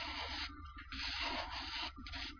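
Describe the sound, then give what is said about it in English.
Continuous scratchy friction noise from a microphone being rubbed across a breast. The broad, hissing rub holds steady throughout, with a few brief dips as the strokes change, and no voices. “This is the sound of a microphone being rubbed across a B cup breast.”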